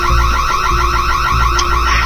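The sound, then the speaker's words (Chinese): A gas leak detector alarm sounding after a stove was left burning: loud, fast, repetitive electronic beeping with a harsh high-pitched pulse that continues without a break. “这是那个煤气监测报警。”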